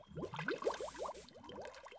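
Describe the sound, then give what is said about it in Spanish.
Bubbling gurgle from someone blowing into water at the bottom of a container, a fast, steady string of many short warbling blips that stays fairly loud for about two seconds. “¡Mira! ¡Hace burbujas!”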